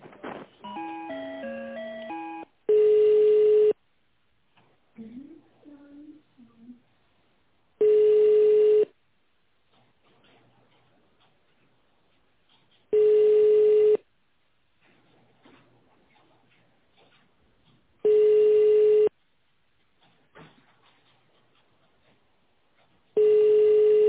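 Telephone line tones while a call to a resort is transferred to reception: a quick run of stepped dial-pad-like tones, then five long, steady, mid-pitched beeps evenly spaced about every five seconds, with faint low noise between them.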